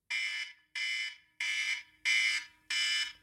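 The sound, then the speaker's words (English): A timer alarm signals that time is up with five loud electronic beeps, each a bright, buzzy tone about half a second long, repeated at an even pace with short gaps between. “when the 5 minutes are up, there will be an alarm and it will sound like this.”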